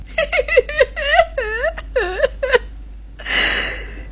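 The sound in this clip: A woman crying while sitting outside a village: wavering, sobbing whimpers come in short, pitch-bending bursts, followed by a noisy, breathy gasp at the end.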